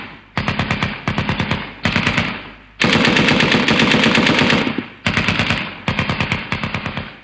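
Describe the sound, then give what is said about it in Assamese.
Automatic gunfire opened by soldiers from their positions at a rock outcrop: loud, rapid bursts of shots, one long sustained burst in the middle, separated by brief pauses. “তোমালোক সেই শিলাখণ্ডৰ পৰা, হয় হয়, ঠিক ঠিক, নিজৰ পজিচনত গুলী চলাবা।”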